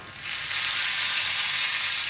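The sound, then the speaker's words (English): Sizzling of a tablespoon of ghee heating in a pan: a steady, bright, hissing crackle that holds evenly throughout, with no voices. “I'm heating a tablespoon of ghee,”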